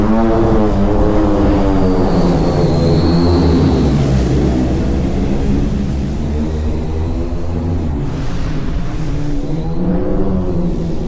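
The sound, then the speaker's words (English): An electric eVTOL aircraft flies over, its rotors giving a loud, steady, multi-toned hum that fills the whole stretch without voices. “And if we skip forward a bit, you can hear what it'll sound like when the aircraft flies over.”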